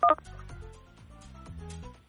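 Telephone keypad tones from a caller pressing digits on a phone during a call-in game: a brief, high beeping burst at the very start, then a steady, lower tonal bed carries on alone.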